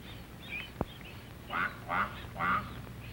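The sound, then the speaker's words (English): A mother duck calls to her duckling with three short nasal quacks in an even rhythm, over a soft steady hiss. A single sharp click comes just before the calls. “This duckling will get lost, but he hears his mother call and runs to catch up with her.”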